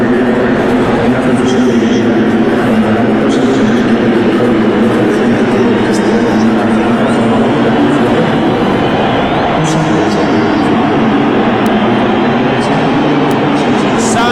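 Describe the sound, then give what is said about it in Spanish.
A steady, loud crowd roar fills Estadio Azteca as the Mexico national team goalkeepers come out onto the field, a dense wash of noise that never lets up, with a voice talking over it. “Así suena el Estadio Azteca, están saliendo los guardametas de la selección mexicana.”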